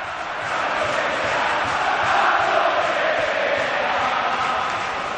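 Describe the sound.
Crowd chanting at Mestalla stadium in Valencia late in a football match, a steady loud roar of many voices sustained throughout.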